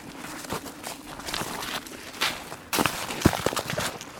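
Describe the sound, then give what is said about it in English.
Footsteps of several people walking on a forest trail in cold weather: many irregular crunching steps that grow louder and sharper in the second half. “So we got to walk faster so we can warm up.”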